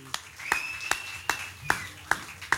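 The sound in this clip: Audience clapping for a guest on stage at a gallery event, a steady run of sharp claps in an even rhythm, roughly seven in total, with a faint sustained tone beneath.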